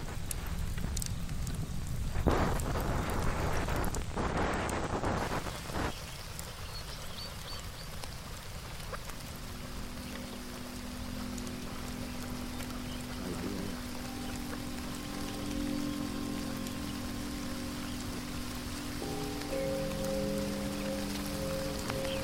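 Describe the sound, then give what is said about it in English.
Light rain falls outdoors as a soft, steady patter of drops that continues evenly throughout, with no voices. “Is it raining? Just a little sprinkle. Nothing to worry about.”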